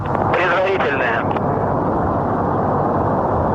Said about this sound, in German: Turbo pumps are coming up to flight speed. And liftoff of the 94th Progress resupply vehicle